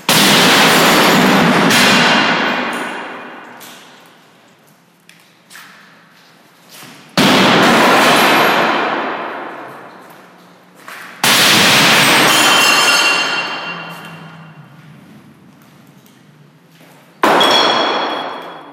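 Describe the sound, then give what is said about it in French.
Bricks and stones are thrown at glass display cases during an art performance, producing four loud smashing crashes of breaking glass. Each crash decays slowly over several seconds, with faint clinks of settling shards in between. “sur le sol sont déposées des briques, des pierres que Kaderatia va saisir pour finalement les, jeter sur ces vitrines et briser les vitres.”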